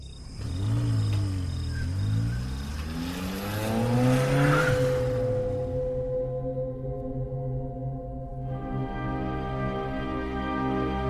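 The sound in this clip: A stolen car drives off through the desert, its engine rising and falling in pitch before settling into a steady drone; no voices are heard.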